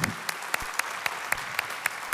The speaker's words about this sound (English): So if you are on site, would you put your hands together and welcome in our online family?